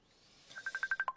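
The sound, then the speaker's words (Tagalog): A mobile phone ringing with an incoming call: a fast string of short, high, bright beeps that fades in and then pulses steadily. The ringing is faint, with no voices. “Oh, may nagpanawag. Cellphone ko.”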